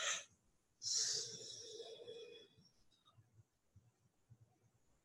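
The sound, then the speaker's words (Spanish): Deep breathing, inhaling and exhaling: a short breath comes first, then a long, loud, airy breath that slowly fades. Faint low thumping pulses follow. “Inhala, exhala y saca.”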